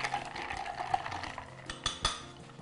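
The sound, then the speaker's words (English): A spoon stirs a raspberry mocktail with continuous scraping and swirling, broken by a few bright metallic clinks toward the end. “so I'm gonna add some raspberries. Kinda feel like I'm having some sangria. And Let's give this little mocktail a stir.”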